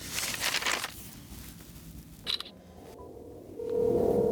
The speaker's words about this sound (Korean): 자, 그러면 택배 작업의 시작은 딸에게 주문 내역을 찍어 보내는 건데요.